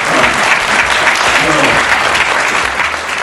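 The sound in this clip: Audience applause fills a conference hall at the Centre Pompidou after the morning coffee break: dense, loud, steady clapping throughout, with some voices mixed in, easing slightly toward the end.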